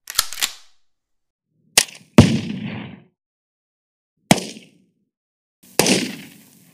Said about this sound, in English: So that was 4 seconds of gun sounds. Oh, I remember trying to edit this. I never thought editing gun sounds was gonna be so hard,